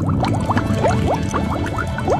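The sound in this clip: A stomach gurgles after a meal with many bubbly, liquid blips that rise slightly in pitch. They repeat in an irregular rhythm over a steady low rumble, loud and alone.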